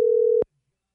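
Ringback tone of a telephone ringing on an outgoing call: one steady, loud tone lasts under half a second and ends in a soft click, followed by silence.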